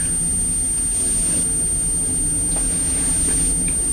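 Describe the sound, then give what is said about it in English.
An aeroplane flying overhead makes a steady, broad roar that fills the whole clip at an even loudness, with no talk over it. “Well, a lot of aircraft again. Can you hear the aeroplane?”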